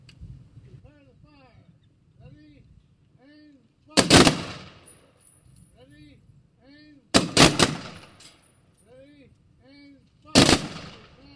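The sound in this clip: A firing party's rifle volley salute for the fallen: three loud, sharp volleys of gunfire spaced a few seconds apart, each ringing out briefly, with faint voices calling commands in between.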